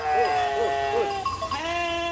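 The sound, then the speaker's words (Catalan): Sheep bleat at night in a fold where the flock is left loose rather than shut in. Three quick, wavering bleats come in a row, followed by a longer, steadier cry. “Estem a la quarta nit, estem a la pleta. Aquí les ovelles no ha calgut tancar-les. Aquí no les tanquem, aquí les deixem aviades.”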